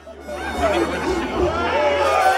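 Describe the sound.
A raucous crowd chatters as people make their way to their seats, overlapping voices forming a busy babble with a few individual voices standing out.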